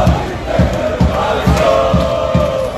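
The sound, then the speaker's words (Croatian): Croatian national team football fans massed in a stadium, a crowd roar pulsing with steady, regularly spaced low beats and chanting voices. “Ono što je uvijek isto, mnogobrojni navijači gdje god naša reprezentacija igrala.”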